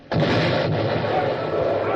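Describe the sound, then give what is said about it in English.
An enemy cannon round shot smashes into a warship's gun port during battle, a sudden loud blast that runs straight into a sustained, broad, rumbling roar and stays loud to the end. “It happened that a round shot from the enemy entered one of our gun ports.”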